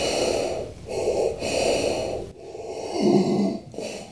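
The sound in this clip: Breath blown forcefully into an inflatable to fill it, heard as several rough, breathy bursts of air with brief gaps between them, fairly loud and with no talking.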